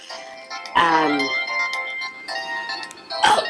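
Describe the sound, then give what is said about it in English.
A mobile phone ringtone chimes in short tonal bursts, a couple of separate rings with a melodic, bright tone, over a steady background hum. “that's my phone, so I have to get this, I have to take this call.”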